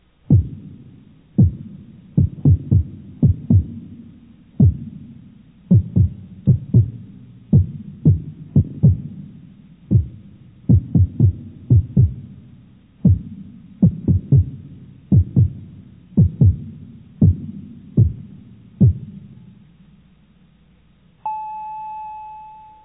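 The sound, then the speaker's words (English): Synthesizer bass drum playing many deep, thumping hits in a steady rhythmic pattern, each with a quick attack and a short low decay. It ends with a sustained electronic tone. “The bass drum sound is best used when combined with other drum sounds”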